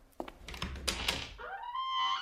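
A door opens onto a puppet storage room: a few soft knocks and thunks, then a drawn-out tonal creak that holds at a steady pitch, all faint.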